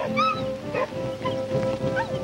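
Soft whimpering from a skinny dog, a few thin, high whines with wavering, bending pitch, heard over a steady low background tone.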